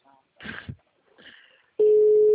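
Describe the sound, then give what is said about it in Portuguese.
A telephone call tone: after a few brief, soft sounds, a loud, steady single-pitched tone starts abruptly and holds to the end. “Tô ligando pra minha mãe.”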